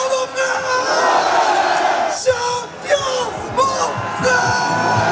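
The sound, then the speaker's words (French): Crowd cheering, whooping and yelling as players are cheered one by one on stage, with captain Marquinhos leading the show. Loud, continuous roar with several sharper shouted bursts, and some voices mixed in. “Sur scène, un à un, les joueurs sont acclamés avec un chouchou. Mais c'est le capitaine Marquinhos qui fait le show.”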